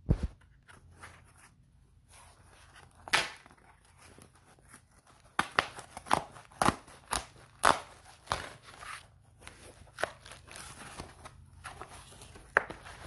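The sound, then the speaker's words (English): A perforated cardboard mailer box is torn open. Crackling rips and crunches come in many scattered bursts, some sharp and loud, others soft, with quieter rustling between them. “It's got a lot of perforation, so maybe it'll be easy to pop open, right, without the use of anvil.”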